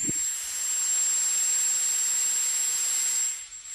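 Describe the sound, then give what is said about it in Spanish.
A dentist's high-speed turbine drill gives a loud, piercing, steady high whine over a broad airy hiss, running continuously for several seconds. No voices. “Esto te suena, ¿no? Nos suena a todos. Es la turbina de un dentista.”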